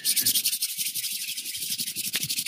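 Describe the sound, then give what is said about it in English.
Hands rub foamy hand sanitizer together in a steady run of many quick, moist swishing strokes, even in loudness from start to finish with no voices. “That is the sound of my hands being clean.”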